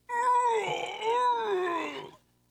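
Drawn-out strained vocal groan from a person bending over to tie a shoe, a wavering, moan-like tone lasting about two seconds with two swells before it stops, heard alone.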